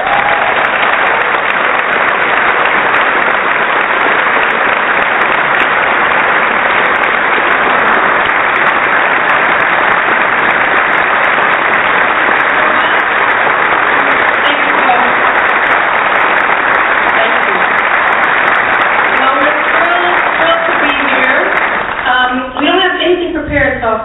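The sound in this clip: Audience applause welcoming guests onto a stage: loud, dense, unbroken clapping that holds steady for over twenty seconds, with a voice starting to speak near the end.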